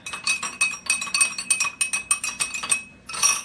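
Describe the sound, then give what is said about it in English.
Rapid clinking of stirrers against two glasses holding water samples for a pH Perfect test, many bright, uneven taps in quick succession, a short pause, then another burst of clinks. “We're going to stir them both.”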